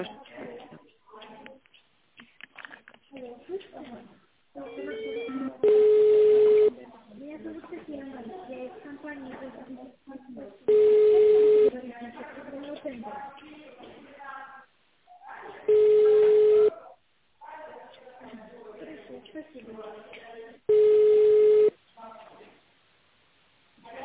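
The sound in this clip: Ringing tones on a telephone call being transferred to an accounting department: four steady, evenly spaced tone bursts, each about a second long, with muffled line sound between them.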